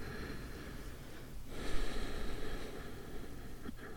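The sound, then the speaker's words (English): A gentle breath drawn during a calming tapping exercise: a soft, airy rush of air that swells gradually in the middle and then eases away, quiet and steady, with no talking over it. “Another gentle breath.”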